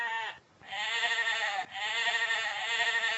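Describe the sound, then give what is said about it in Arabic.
A Merino sheep bleats in drawn-out, wavering cries: a brief call and then a long sustained one that breaks for a moment. It is clear and alone, with no voices. “المارينو اللي بتدي الصوف الجميل، لها مأمأة معينة كده مختلفة عن أي خروف آخر.”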